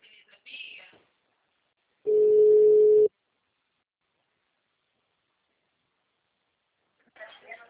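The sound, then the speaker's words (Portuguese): A telephone ringback tone sounds on an outgoing call to a customer: one steady, mid-pitched beep lasting about a second, with brief voices before and after it. “Tô ligando para aquela cliente lá.”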